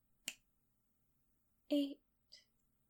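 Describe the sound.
A single sharp finger snap cuts through near silence during a spoken countdown. A short burst of voice follows later.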